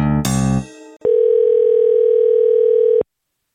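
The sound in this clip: A telephone dial tone plays while a call is being placed. A short burst of other sound comes first, then a steady, mid-pitched tone holds for about two seconds before stopping abruptly.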